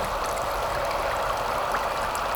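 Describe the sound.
A river flowing nearby, heard as a continuous rushing murmur of water that stays even and unbroken throughout.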